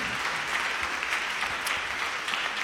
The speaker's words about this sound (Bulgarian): Вашите аплодисменти са за Амиде Даракчи